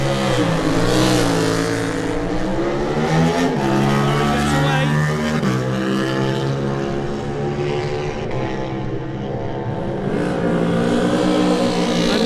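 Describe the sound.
Racing motorcycle engine accelerating hard in a Supersport race, the number 16 bike, a loud sustained roar with harmonic tones that repeatedly climb in pitch through the gears.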